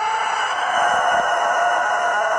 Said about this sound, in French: Mais oui, c'est un cocorico, ça. Il est malade, l'animal.